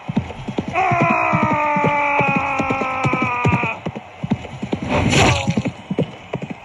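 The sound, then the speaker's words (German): A horse gallops in the knight video game Rittermanager, with rapid, rhythmic hoofbeats throughout; a sustained tonal cry rides over the early stretch, and a louder burst of noise comes near the end. “eilt Podcastfrau auf seinem Ross zur Hilfe. Er schwingt sein Schwert hoch über den Kopf und galoppiert direkt auf Frederik zu.”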